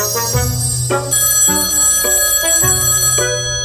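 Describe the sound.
A telephone rings in a home near Dinard, France, with bright bell-like tones that shift between several pitches in a continuous, loud pattern, with no talking.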